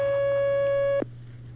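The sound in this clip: Telephone line signal for an incoming call on a phone-in line: a steady, single-pitched electronic tone holds for about a second, then cuts off abruptly, leaving a faint low hum.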